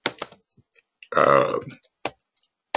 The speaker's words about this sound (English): And here I am, you know, typing with clumsy fingers.